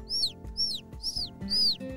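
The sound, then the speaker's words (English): Baby birds chirp outside on a morning: four high, quick chirps, each sweeping downward in pitch, spaced evenly with short gaps between them. “the baby birds are chirping outside”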